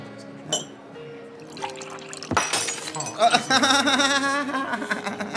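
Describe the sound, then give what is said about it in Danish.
A cup of black coffee is dropped on the floor and shatters: a sudden sharp crash with splashing, breaking noise midway, with people talking before and after it. “Du mistet koppen i gulvet, du. Den knuste.”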